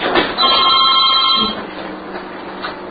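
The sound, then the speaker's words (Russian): A telephone rings in one sustained burst of bright, buzzing electronic tone lasting about a second, loud over a low background hum, and then it stops, leaving only quieter noise. “Возьмите кто-то трубку.”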